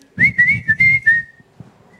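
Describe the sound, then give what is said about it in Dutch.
Melodic whistling by a Belgian jazz whistler, a short bright tune of several connected, slightly wavering notes, loud and alone, stopping about halfway with only faint low sounds after. “De, de, de whistler. De fluiter.”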